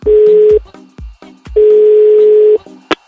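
Ringback tone of an outgoing phone call: two loud, steady mid-pitched tones, the first about half a second and the second about a second long, separated by quieter clicks and thumps, with a sharp click near the end.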